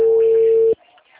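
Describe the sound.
A telephone call tone: one steady, loud electronic note held for most of a second, then cut off abruptly, leaving only faint low noise.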